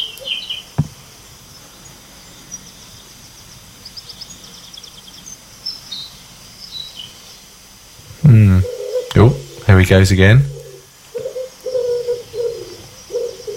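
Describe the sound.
Early-morning dawn chorus birdsong, recorded by a phone on a windowsill through an open window: faint scattered chirps and insect-like calls, then a loud run of repeated cooing calls before quieter chirping resumes. A voice speaks briefly.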